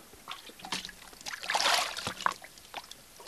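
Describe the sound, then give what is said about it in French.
Foley water sounds imitating a boat on the sea, made with a basin of water and a small plastic box: soft, irregular sloshing and swishing splashes that swell in the middle and then settle, with no talk. “il a relevé le défi de reproduire en live les sons de la mer et du bateau. Une vulgaire bassine au fin fond de mon hangar, et avec une petite boîte en plastique, je fais par exemple”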